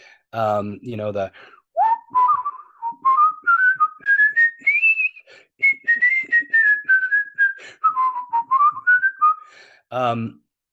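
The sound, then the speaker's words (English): A person whistles a tune with a controlled warble, the clear tone climbing steadily in steps and then wavering back down in short phrases. A voice is briefly heard just before the whistling starts and again right after it ends. “I became really good at whistling, and especially with controlling my warble,”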